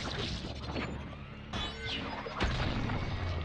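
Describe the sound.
Crunching smash impacts from a gory finishing-move fatality in a fighting video game, two heavy crashes over a noisy, clattering bed, the second louder and followed by a low rumble.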